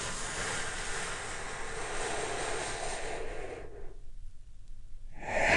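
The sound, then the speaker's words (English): A slow, deep, calming breath: a long, steady, airy rush lasts several seconds and then falls quiet, and the next breath begins to swell at the very end. “Let's take a big, deep, healing breath right now.”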